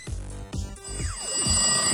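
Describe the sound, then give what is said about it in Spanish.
Telephones ringing with repeated bright electronic trills in short regular bursts, steady and fairly loud, with no one talking. “Suenan los teléfonos.”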